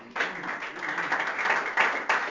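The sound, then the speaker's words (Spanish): Applause from a church community gathering, starting abruptly and continuing as fairly faint, uneven clapping with a couple of swells toward the end. “Démosle un aplauso”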